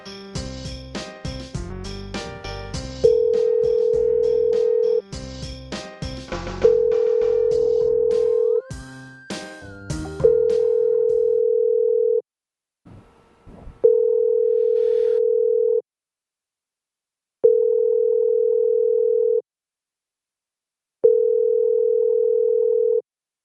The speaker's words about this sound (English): This is very exciting. The phone's ringing.